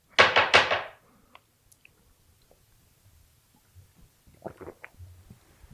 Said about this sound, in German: Ich habe gelesen, dass sich Leute über die sehr lauten Schluckgeräusche beschweren. Ja. Ich glaube, bei mir war eben gerade wieder sehr laut.